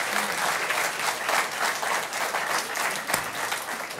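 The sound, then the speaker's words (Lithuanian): Applause for the prime minister: many hands clap together in a dense, steady stream that stays at an even, fairly loud level throughout. “Plojimai premjeras.”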